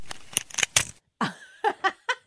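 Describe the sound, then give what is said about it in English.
Four paper clips clicking and rattling as a magnet is dragged across them and they latch on: a quick burst of sharp metallic clicks, followed by voices. “Four paper clips and a magnet. Yeah. And then, so the magnet and the paper clips grab, and it's like, shh.”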